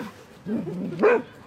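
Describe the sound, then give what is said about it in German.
A dog yaps at younger dogs playing on a dog training ground: a faint whiny yelp followed by a sharper, higher-pitched bark, fairly quiet and brief. “Wenn die jüngeren Hunde spielen, dann kläfft er die an.”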